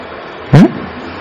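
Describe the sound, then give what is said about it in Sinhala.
A bus passing by outside, heard as one short, fairly loud swell of engine and road noise that rises and fades within a fraction of a second over a quiet background. “එළිය bus එකක් යනවා. Bus එක නේද?”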